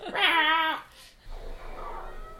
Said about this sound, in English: Oh no, an immortal cat attacked.